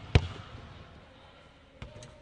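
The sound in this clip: A basketball shot banking off the backboard glass: one sharp, loud impact, then after a pause a fainter second thump, with a quiet background.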